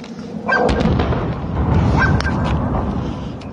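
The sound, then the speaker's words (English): A dog barking a few times in a city street in Tehran in the evening, short sharp barks standing out over a steady wash of background noise. “A dog barks.”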